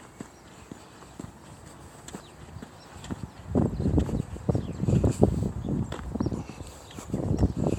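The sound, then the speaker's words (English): Footsteps walk through a housing estate. The first half is quiet, then a run of fairly loud, irregular steps begins midway and continues to the end over a faint background hiss. “this recorder picks up stuff as I walk around, basically.”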